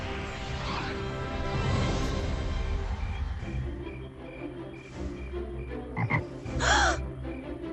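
A frog croaks in a fairy-tale scene about a prince turned into a toad: low, throaty, repeated croaks over a steady buzzing background, with a sharper, brighter burst of sound near the end.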